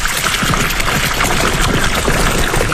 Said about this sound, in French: C'est super, c'est beau. Cette eau, elle vient d'où ? Elle vient de mon puits, un puits de 50 mètres.